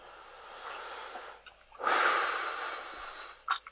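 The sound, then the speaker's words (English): Deep breaths drawn slowly: two long, airy rushes of breath, the second louder and fuller, with a short sharp snort-like puff near the end. “Just need to take a couple of real, real deep breaths.”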